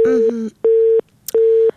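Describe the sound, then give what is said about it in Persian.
Busy tone on a phone line after a caller to a radio call-in show is cut off: three steady, mid-pitched beeps of equal length with short gaps, the first briefly overlapped by a voice. “متاسفانه تماس خواهر ما قطع شد.”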